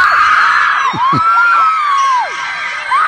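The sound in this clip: A crowd screams and whoops in welcome for an arriving guest: a steady, loud wash of shrill cheering with piercing whistle-like cries rising and falling above it, easing slightly near the end before swelling again.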